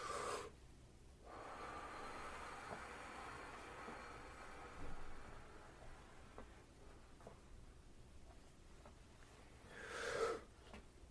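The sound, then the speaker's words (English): Deep breaths drawn in during a guided breathing exercise. They are faint and airy: one soft breath at the start and another near the end, with near silence between them and no talking. “Breathe in.”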